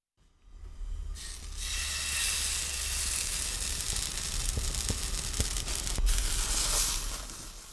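Battered, square-cut pieces fry in a pot of oil over low heat, giving a steady, continuous sizzling hiss with scattered faint crackles and a few sharper ticks.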